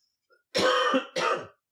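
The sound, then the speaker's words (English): Two harsh cough bursts sound alone: the first is longer and the second shorter, with a brief pause between them and a faint breath just before. “Didn't want to cough in your ear there.”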